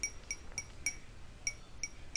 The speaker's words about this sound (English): It exists in a vibrational state. So if I strike the glass,